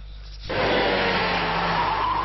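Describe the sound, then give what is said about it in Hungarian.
A high-powered rally car of several hundred horsepower races along a village street on a special stage past family houses, bursting in after a brief quiet with a loud, sustained roar of engine and tire noise. “Azóta minden évben egy napig a több száz lóerős gépek a családi házak bejárata előtt robognak el.”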